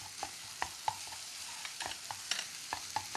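Chopped green onion and garlic stir-fried in a pan over high heat: a steady sizzle broken by many sharp scraping clicks of a utensil against the pan.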